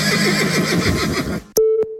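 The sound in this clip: A horse neighs in an advert for a Balkan dressage riding championship, a loud quavering whinny with a shaky rising and falling pitch, followed by a short bright tonal sting.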